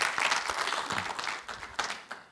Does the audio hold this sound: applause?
yes